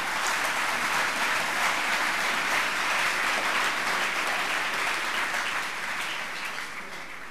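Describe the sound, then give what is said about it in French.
Students in an audience at a prayer gathering clap for themselves. The loud, continuous patter of many hands stays level for most of the stretch, then tapers off slightly in the final second or so. “Clap for yourself. Applaudissez pour vous-même.”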